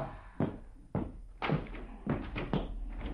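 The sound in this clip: A door being opened for a visitor in an Arabic audio drama, heard as a few dull wooden thuds and knocks spaced roughly half a second apart, fairly loud against a quiet background.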